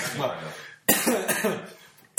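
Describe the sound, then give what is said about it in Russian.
A man coughs twice in the middle of his speech, each cough a sudden harsh burst that breaks off his talking. “прямо даже закашлялся”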